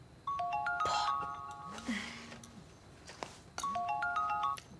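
A mobile phone rings with an incoming call, a melodic electronic ringtone heard in two loud bursts separated by a quieter gap, with no talk.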